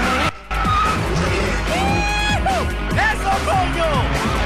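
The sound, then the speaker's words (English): A police squad car spins around and skids during a street car chase: loud, shrill tire squeals rise and fall in curving sweeps over a rough engine roar, with brief drops in level. “A squad car joins them. The squad car spins around overwhelmed. Its front stowed in.”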